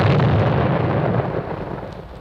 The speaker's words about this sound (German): Und dann kam die Explosion, und als sich der Qualm verzogen, zeigte sich, oh welch ein Hohn, keine Schraube war verbogen.